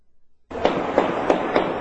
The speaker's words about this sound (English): A barrage of gun and artillery fire in Yemen reverberating through the streets of the capital today.